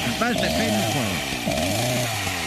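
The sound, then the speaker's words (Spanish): Chainsaw running while felling a pine tree, a loud, continuous buzzing drone that stays steady throughout as people talk over it. “A ver, deja ver si puedo tumbar ese pino. Tienes que prenderla otra vez.”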